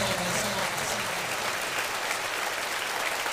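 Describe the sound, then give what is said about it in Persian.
An audience clapping at a gathering, urged on by the speaker, produces a dense, continuous patter of many hands, steady and fairly soft throughout, with no voices over it. “میخوای همینجور دست بزنی؟”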